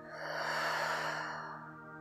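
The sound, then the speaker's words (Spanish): A deep exhale through the mouth: one long, soft, breathy rush that swells and then fades away, quiet and alone. “Inhala profundo por tu nariz. Y por tu boca suelta el aire.”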